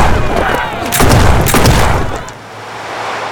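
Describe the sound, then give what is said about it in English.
A volley of gunshots in loud, overlapping booming cracks that run together for a couple of seconds before fading into a lower rumble. “Shoot them! Shoot the lot of them!”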